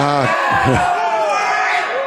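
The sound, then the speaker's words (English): A crowd at an Owls versus Oil City basketball game voicing displeasure at a referee's call, loud groaning and shouting voices with wavering pitch over a busy background roar. “A missed shot, and that's off of Oil City, and it's going to be Owls basketball. Crowd not happy with that call.”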